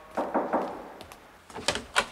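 Knocking on a door whose bell is broken: a quick group of three dull knocks, a couple of faint taps, then another cluster of knocks, moderately loud with no talk.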